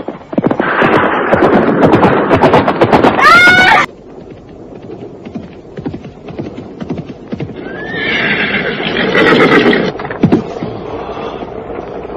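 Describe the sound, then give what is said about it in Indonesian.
A horse whinnies and gallops hard across open ground as its rider drives it on at speed. Rapid hoof beats run throughout, with a sharp, high neigh partway through and another whinny later. “Wandira semakin kencang melarikan kudanya. Binatang itu bagaikan terbang di atas permukaan tanah.”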